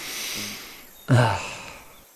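A person sniffs, drawing one quick, breathy inhale through the nose. It comes after a quiet stretch and is sharp at the start, then fades out.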